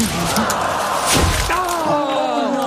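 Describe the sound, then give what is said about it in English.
A sliced golf shot crashes into trees and strikes a bald eagle's nest, giving one heavy thud with a brief crashing burst midway, with voices around it. “He hit a nest that time.”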